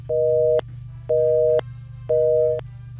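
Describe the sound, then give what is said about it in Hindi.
Telephone busy tone after a dropped call: three evenly spaced beeps of identical steady pitch, each about half a second long, sounding clearly over a low constant hum. “हमारी collar का शायद call cut चुका है, वो network में नहीं है।”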